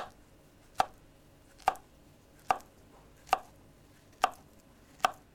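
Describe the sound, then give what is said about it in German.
A knife chopping a peeled banana into small pieces for a milkshake: six crisp, evenly spaced chops on a board, each a short sharp knock, with quiet pauses between them. “Hier habt ihr jeder eine Banane zum Schälen. Fertig. Ich auch. Prima. Jetzt noch klein schneiden.”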